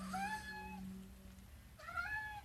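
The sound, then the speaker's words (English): A domestic cat meows twice, faint and separated by a short pause, each cry bending in pitch. A low steady tone hums underneath the first meow. “And that's my cat Enzo, you can hear.”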